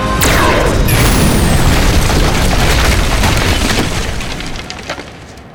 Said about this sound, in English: I took a deep breath, stepped back, and pointed my plas gun at the wall. Power spiked under my skin as I squeezed the trigger.